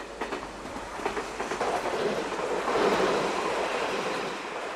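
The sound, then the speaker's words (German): A train rolling along rails, a continuous broad rumble with rhythmic clickety-clack beats that swells toward the middle and then eases slightly. “Das ist eine Bahn gewesen.”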